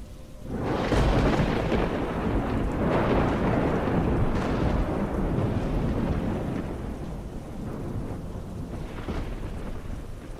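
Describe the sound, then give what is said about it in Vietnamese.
Thunder rumbles over heavy, continuous rain in a violent storm with strong wind, a loud, dense roar that holds across the whole clip with a few swelling peaks. “Tiếng sét làm cho tôi giật mình tỉnh giấc. Ngoài trời cũng đang mưa, sấm chớp giật đùng đùng.”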